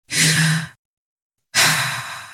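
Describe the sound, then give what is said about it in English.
Deep breathing by a person: two loud, airy breaths separated by a short silence, each a drawn-out rush of air with no speech. “Take a deep breath.”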